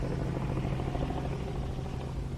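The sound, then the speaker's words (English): A helicopter flies overhead, back again: a dense, steady rotor and engine drone with a low hum underneath, continuous and even in loudness throughout, with no voices. “It's a cunt of a helicopter back again.”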